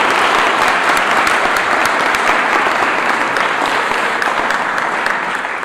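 Applause at a candlelit church service, given to the people who lit the candles: loud, dense clapping from a large crowd that goes on steadily throughout.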